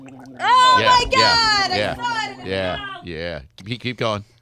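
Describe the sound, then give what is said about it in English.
A person gargles loudly, letting out a voiced, bubbling throat tone whose pitch wavers and warbles, running almost without a break before choppier bursts near the end. “Start the gargling, loudly. Loudly.”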